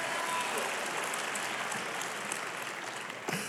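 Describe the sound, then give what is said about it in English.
Church audience applauding and cheering for a pastor's birthday: dense, steady clapping with a faint whistle near the start, slightly easing toward the end. “And come on, if you love your pastors, can you make a little bit of noise and just tell them we love them?”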